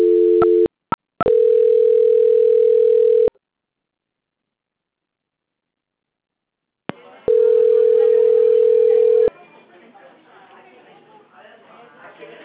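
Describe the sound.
Telephone tones during a call transfer: a few short beeps, then two long, steady, mid-pitched tones separated by a silent gap, followed by faint background noise.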